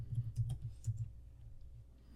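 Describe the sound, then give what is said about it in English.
Typing on a computer keyboard: a short flurry of soft, quick keystrokes clusters near the start, then thins out to a faint background. “That's what I typed in.”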